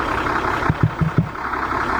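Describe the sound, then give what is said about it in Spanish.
A bus engine runs with a low, steady idling hum, broken midway by a few brief, soft low pulses, with no voices over it. “Un relojito. Ese motor te lleva a Ushuaia y de vuelta.”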